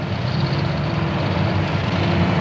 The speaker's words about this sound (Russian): По просеке к реке спускается танк Т-72. За ним едут две бронемашины БРДМ-2.